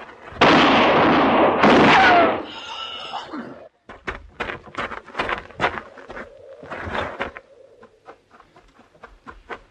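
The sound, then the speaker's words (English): Gunshots ring out in a tense western drama confrontation: two loud, sustained blasts with broad, rumbling tails, followed by people talking in short, urgent exchanges. “You all right, Mrs. Lockton? You shot him. Yes, ma'am. He's dead.”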